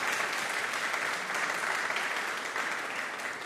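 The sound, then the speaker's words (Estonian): A church audience applauds a couple celebrating their wedding anniversary, with even, continuous clapping at a moderate level throughout. “Teil on pulma juubel. Ja teeme aplausi ära.”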